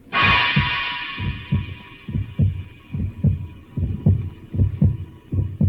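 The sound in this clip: Amplified heartbeat of an injured man during emergency treatment: a steady run of low, thudding beats under a sustained high electronic hum that fades slightly over time.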